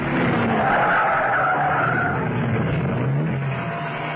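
Tires skid loudly as a car brakes hard and swerves off the road, a sustained rough screech lasting about four seconds with no voices, easing slightly toward the end.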